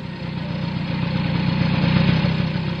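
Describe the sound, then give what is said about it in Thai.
Car engine of an arriving car, a steady low, rough rumble that swells slightly toward the middle and eases off at the end, with no talk. “ใครมาอีกล่ะเสียงรถคุ้นๆ”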